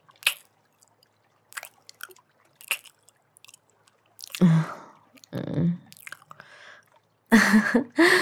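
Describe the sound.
Wet kissing on the lips: a few short, soft smacking sounds at first, then longer, louder squelching bursts with a low muffled voiced tone.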